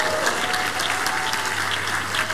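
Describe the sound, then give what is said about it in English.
A church audience claps in worship at the start of a new month, a steady, dense, continuous burst of applause. “Happy brand new month to you in the name of Jesus Christ. Give the Lord the biggest clap offering.”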